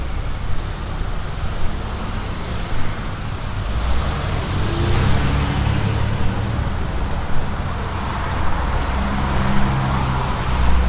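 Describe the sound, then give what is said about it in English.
Cars waiting at a traffic light on Frankfort Avenue give a steady low rumble and hiss of idling engines, continuous and even, with no sharp events standing out. “So you can probably hear the cars waiting at the light there.”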